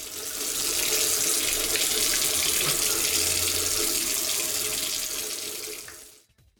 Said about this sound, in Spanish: Cerrá la llave mientras te cepillas los dientes o lavas los platos.